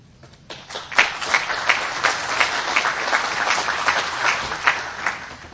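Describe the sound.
Audience applause welcomes a guest speaker, the director of the Environmental Protection Agency's SmartWay program, to the stage: dense, steady clapping from many hands with sharp individual claps, continuing evenly throughout.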